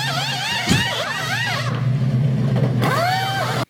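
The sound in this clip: Race car engines rev and whine in the pits, the pitch repeatedly sweeping up and down over a steady low rumble in a loud, continuous roar lasting a few seconds.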